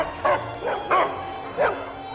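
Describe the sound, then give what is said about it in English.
Dogs pacing in kennel cages bark, a few sharp, mid-pitched barks spaced out over about two seconds, with no voices. “pace around in the cages, barking at Dave as he walks along the aisle”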